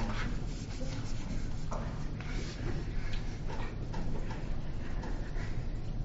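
Pen or marker writing out partial-derivative notation during a math lesson. Continuous scratchy, rubbing strokes run in quick uneven bursts with no pause.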